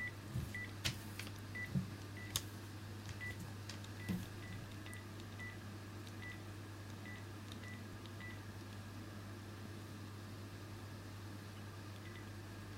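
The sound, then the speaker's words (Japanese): Telephone dialing tones from a phone call being placed: a long run of short, evenly spaced beeps repeating steadily over a constant low electrical hum, with no voices. “電話番号書いてくださってる方にかけてみちゃうよ。”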